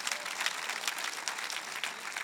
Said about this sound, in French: Vous devriez applaudir.